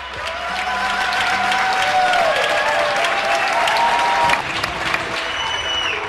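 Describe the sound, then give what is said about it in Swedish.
Steady, dense applause from people clapping on their balconies in Spain around ten at night during a coronavirus lockdown, continuing evenly throughout without voices. “Det du hör är ljudet av tacksamhet. Några dagar efter att invånarna i Spanien satt i husarrest av sin regering för att motverka spridningen av corona gick man ut på sina balkonger vid 10-tiden på kvällen och började applådera.”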